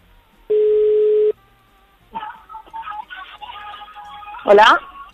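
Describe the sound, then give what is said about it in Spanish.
A telephone being dialed to call a number picked at random: one steady tone lasting under a second, followed by busier, warbling sounds. “¿Estamos llamando? Sí, estamos llamando.”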